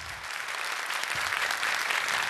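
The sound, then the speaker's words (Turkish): Audience applause from a studio crowd at a televised music show, a steady, dense patter of many hands clapping that holds at an even level throughout, with no voices over it. “Çok teşekkür ediyoruz efendim kıymetli alkışlarınız için.”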